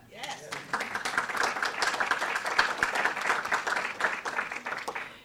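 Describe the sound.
Audience applause welcomes a speaker, with dense, steady clapping running throughout and a few voices mixed in.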